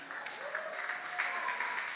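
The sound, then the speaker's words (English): An audience applauding as a pastor is welcomed onto the stage, a steady wash of many clapping hands holding at an even level throughout. “Let's put our hands together as I bring up Pastor Emmanuel Dansu.”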